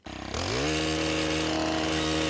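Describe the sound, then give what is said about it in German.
An engine-driven earth auger drills laboriously into hard, dry, stony ground in western Munich. Its motor note climbs quickly, then holds a loud, steady drone with a rough buzz. “Der Erdbohrer schraubt sich etwas mühsam in den Boden. Der ist hart im Münchner Westen, eher trocken, viele Steine.”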